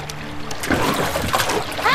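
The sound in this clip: Water splashes and sloshes as a boat is poled along, a continuous wet churning with a few brighter splashy surges through the two seconds.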